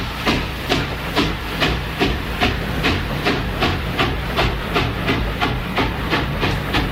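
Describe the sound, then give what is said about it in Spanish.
Rhythmic steam-train chuffing opens a 1969 rhythm and blues song, with loud, evenly spaced bursts of hiss repeating quickly in a steady clickety-clack pulse throughout. “El tema empieza con un tren, es el tren de Memphis.”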